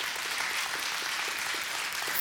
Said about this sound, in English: Come on, give the Lord a hand clap of praise today.